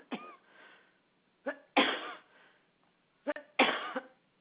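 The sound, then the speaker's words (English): Coughing from a person who has just choked up: a few harsh, raspy bursts that come in close pairs with short pauses between them, loud and alone without talk. “I'm sorry, just as I get ready to speak, I get kind of choked.”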